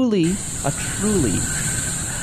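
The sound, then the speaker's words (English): Air leak hissing steadily and brightly throughout, with a voice making sliding, warbling noises over the hiss. “Those don't sound like jungle sounds at all. It sounds like... You sprung a leak again”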